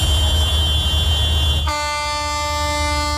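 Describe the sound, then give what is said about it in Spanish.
Loud, sustained horn blasts from dozens of tractors at a farmers' drought protest in front of the regional government headquarters, droning continuously over a rumbling noise, with a fresh set of steady horn tones cutting in partway through. “A esta hora, varias decenas de tractores se manifiestan así frente a la sede del Gobierno vasco.”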